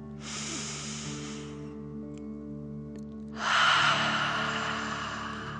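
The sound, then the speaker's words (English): Two long, airy mouth breaths, one in and one out, are taken in a relaxation exercise that pretends to breathe fire. The second breath is louder and rougher, and soft, sustained music plays underneath. “pretending you are breathing fire. Ready? Okay. Deep breath in and out.”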